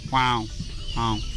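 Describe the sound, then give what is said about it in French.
A héron bureau, a heron, gives two harsh, nasal honking calls separated by a short pause. Each call is a loud, buzzy note with strong harmonics. “On pourrait entendre quang, quang, quang. Là c'est le cri du héron bureau.”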